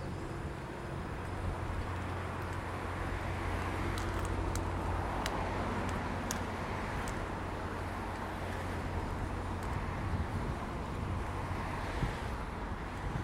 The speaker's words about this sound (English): It's a little windy out here today.